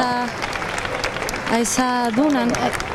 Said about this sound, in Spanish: esos aplausos